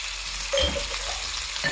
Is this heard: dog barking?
no